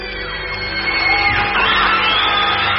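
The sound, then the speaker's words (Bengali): Audience at a magic show cheers and shouts in a loud, continuous roar of mixed yells and whoops, with a few rising whooping cries standing out midway. “এই অসাধারণ খেলা দেখে দর্শকরা ফেটে পড়ল উল্লাসে”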